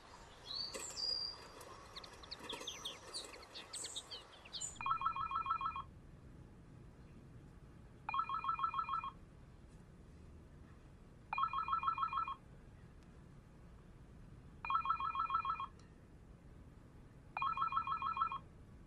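A telephone rings five times in evenly spaced electronic bursts about three seconds apart. The rings are clear and moderately loud, preceded by a few seconds of high, busy chirping tones.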